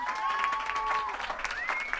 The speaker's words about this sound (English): Put your hands together, guys.